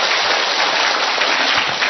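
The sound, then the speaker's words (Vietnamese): Applause from an audience at an event honouring married couples: a dense, even rush of many hands clapping at once, with no clear gaps or single claps. “Một tràng pháo tay thật lớn thưa anh chị em.”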